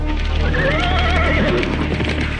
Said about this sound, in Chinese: 马队就地转了一个圈，小罗揪的缰绳有点急，那马几乎站立起来了。